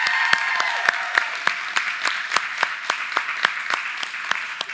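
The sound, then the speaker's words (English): Audience applause welcoming visiting church members, a steady wash of clapping with sharp, evenly spaced claps cutting through in a regular rhythm throughout. “One of them is we want to give a special welcome to the folks from Potential Church. Guys, just give them a hand.”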